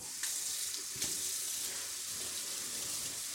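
Tap water runs steadily over canned black beans being rinsed, a continuous bright rushing hiss broken by a couple of brief knocks near the start.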